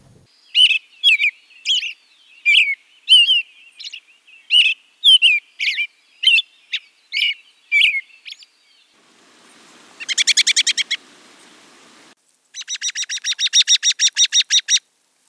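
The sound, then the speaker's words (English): An American robin sings many clear, whistled caroling phrases in short, evenly spaced bursts. Two rapid, higher, buzzier pulsed sequences follow, loud and alone with no voices. “So let's hear the first one. And our first one is the lovely American robin.”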